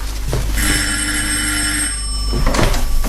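An old-style telephone bell rings in one bright, metallic, sustained peal of about two seconds, loud over a steady low background.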